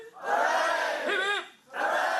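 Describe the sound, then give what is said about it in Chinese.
A crowd of students at a university gathering cheers and shouts as the Shenzhou-23 crewed spacecraft lifts off, watched on a live feed. The loud, sustained roar of voices dips briefly, then surges again. “在神舟23号乘组中，首位来自香港的载荷专家黎嘉莹正是港大校友，跟随着飞船顺利升空，现场随即传出欢呼和掌声。”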